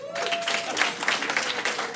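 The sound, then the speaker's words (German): A comedy-show audience claps on request. Fairly faint, steady applause of many hands lasts for the whole short clip. “Wer hat sich das Leben anders vorgestellt? Klatschen bitte.”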